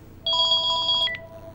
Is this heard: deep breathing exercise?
no